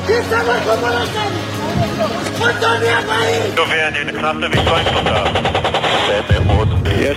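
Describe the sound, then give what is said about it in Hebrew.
Gunfire and explosions from video footage of air force strikes on Iranian nuclear targets: rapid, loud bursts of shots and blasts throughout, mixed with voices and crowd babble. “מה שאתם שומעים זה סרטונים שמראים את התקיפות של מטוסי חיל האוויר, ולכן הרבה מאוד קולות של פיצוצים ועדי נפץ.”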